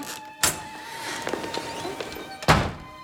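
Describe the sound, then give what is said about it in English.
A French window being opened: a sharp thunk, then a few small clicks and rattles, then a second, louder thump near the end. “She rushes to the French windows and opens one.”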